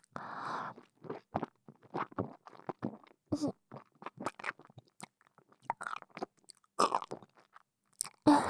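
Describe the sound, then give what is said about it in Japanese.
Wet chewing of food, with many short crunchy bites and mouth sounds in a quick, steady rhythm across the whole stretch, fairly soft and with no talking. “まずよく噛んでから。”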